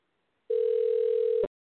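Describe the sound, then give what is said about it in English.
A single steady telephone tone rings out for about one second, alone and clean, as a dialed call connects through the line. “Well, now it's dialing.”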